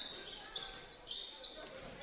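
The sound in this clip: A basketball is dribbled during a game on court, with a few soft, dull bounces heard faintly under a steady crowd murmur.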